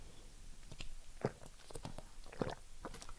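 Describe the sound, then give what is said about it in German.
Mouth noises from drinking during a short drink break: a few soft wet gulps and clicks spread across the stretch, two of them sharper and louder than the rest, with no talk. “Kurze Trinkpause.”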